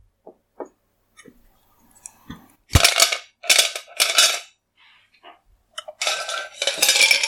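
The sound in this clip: Glasses and cutlery clink while a gin and tonic is mixed with canned tonic. A few sharp, isolated clinks come first, then longer bursts of clattering, all with no talk.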